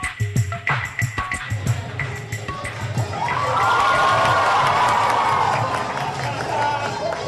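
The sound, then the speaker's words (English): Students cheering during a dance in Mumbai: a few seconds of rhythmic thumping beats, then a loud sustained swell of crowd cheers and shouts that carries on to the end. “the sound there of the President, President Obama, and First Lady Michelle Obama dancing with students in Mumbai”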